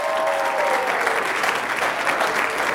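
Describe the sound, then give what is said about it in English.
An audience in a gym applauds to welcome a couple to the platform. The clapping is steady, dense and loud, a continuous wash of hands with no break. “So would you put your hands together and welcome Jonathan and Harmony Thomas to the platform.”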